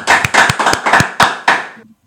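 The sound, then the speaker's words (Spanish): Studio audience applauding with a few loud, sharp claps in an uneven rhythm, ending shortly before the close. “Y bueno, pedimos un aplauso también a nuestros espectadores, a nuestros oyentes que están aquí, para estos dos chicos.”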